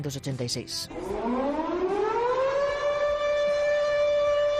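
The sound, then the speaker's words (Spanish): The alarm siren of the Chernobyl nuclear power plant during the 1986 explosion: after brief voices, a loud wailing tone winds up in pitch over about two seconds, then holds a steady, sustained howl. “Así sonaba la sirena de la central nuclear de Chernóbil cuando explotó.”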